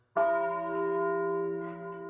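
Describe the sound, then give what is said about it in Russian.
A single deep stroke of a guardhouse bell tolls midnight, then a steady, bright harmonic ring sustains and fades only slightly over two seconds. “В наступившей тишине ударил колокол в Кардегарде, тоскливым звоном возгласив полночь.”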